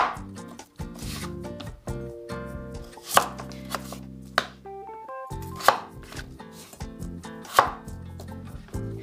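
Knife chopping a cucumber on a board, halving it and then cutting it lengthwise into quarters for a chilled okra, cucumber and myoga soup; a few sharp knocks sound amid softer scraping.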